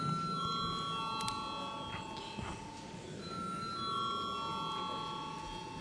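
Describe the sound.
A bell rung in a parliament chamber before a vote: faint, steady ringing tones hold across the whole stretch over a low murmur of room noise.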